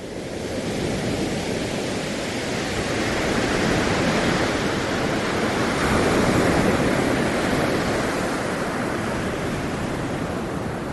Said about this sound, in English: it's almost like you've never heard a wave before.